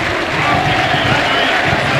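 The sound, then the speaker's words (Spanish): Stadium crowd applauding a substituted player leaving the pitch at a football match between Gimnasia de Jujuy and Gimnasia y Tiro: loud, continuous clapping blended with a dense crowd roar, steady throughout. “escuchen. El reconocimiento de todo el público.”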